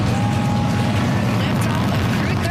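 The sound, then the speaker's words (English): Rocket-launch roar from a Falcon 9 lifting off from Cape Canaveral with a crewed Dragon capsule: a dense, steady, low rumbling roar that fills the whole clip without pause. “Joshua Kuchrick, the Canadian astronaut on board the Falcon 9 rocket that launched this morning from Cape Canaveral.”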